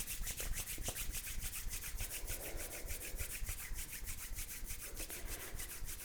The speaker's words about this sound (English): Then you can take your hands and rub them together.